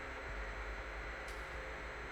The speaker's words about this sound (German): Die Verbindung bricht ab. Ein Klicken, dann das leere Rauschen der Totenfrequenz.